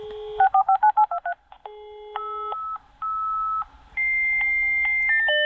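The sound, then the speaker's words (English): Dial-up internet modem connecting: a rapid run of short dialing tones, then a string of steady electronic beeps and tones that jump between pitches, loud and alone with no voices. “I would like to say no, but I am that old and I will recognise the dial-up sound, yes. The dial-up sound, correct.”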